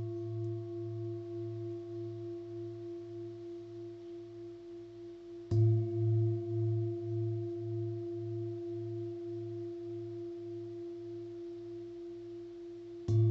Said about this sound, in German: Die Klangschale, die du hier hörst, schwingt mit dem Kehlkopfchakra in Resonanz.